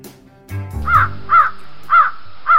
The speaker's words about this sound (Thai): อีกาน้อยที่น่าสงสารลงไปนอนแอ้งแม้งอยู่กับพื้น กระพือและตีปีกของตัวเอง พร้อมกับร้องว่า